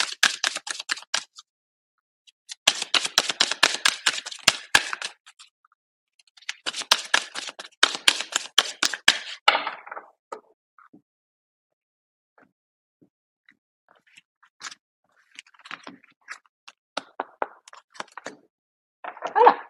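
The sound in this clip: An oracle card deck being handled and a card drawn: three bursts of rapid, crisp riffling clicks like cards shuffling fill the first ten seconds, followed by sparse soft taps and light rustles. No one speaks.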